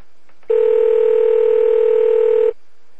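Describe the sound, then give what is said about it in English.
A single ringing tone from an outgoing internet phone call. It is a loud, steady electronic tone that lasts about two seconds, with quiet before and after it. “all I have to do is click on connect, and it's like, there, ringing.”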